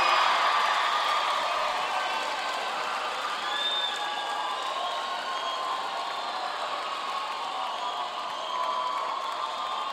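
Audience applause and cheering welcome a guest musician at a live concert, a steady, dense wash of clapping with scattered shouts that holds at an even, fairly loud level throughout.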